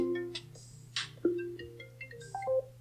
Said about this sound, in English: And that's my phone ringing in the background.